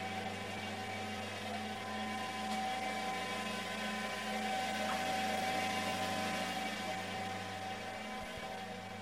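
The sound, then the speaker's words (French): Textile combing machine in a spinning mill, drawing slivers through to comb them: a continuous mechanical drone with a steady low hum and a thin tonal whine, unchanging throughout. “on va faire traverser les rubans dans la machine. Et donc on passe d'un ruban à un ruban. Il est juste mieux peigné en traversant la machine.”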